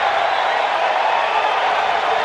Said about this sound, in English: And that brings out the cheers here at Angel Stadium.